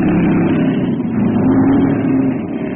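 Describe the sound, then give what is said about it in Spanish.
A car with failed brakes roars down a slope at 120 miles per hour, its engine giving a loud, steady, rushing rumble with no break. “El auto se desliza por la pendiente a 120 millas por hora.”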